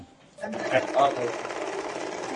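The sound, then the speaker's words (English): An industrial sewing machine whirs on a factory assembly line, starting after a brief quiet moment and then running in a steady, continuous buzz while a voice talks over it. “It's time to put down the microphone and pick up the slack, experiencing life on the factory floor. At first, I gave the sewing machine a try.”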